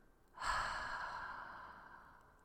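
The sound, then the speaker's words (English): A single slow, breathy exhale after a deep breath begins abruptly and then fades gradually over about two seconds. It is soft and heard alone. “Go on, take a big breath. Now, let it out real slow.”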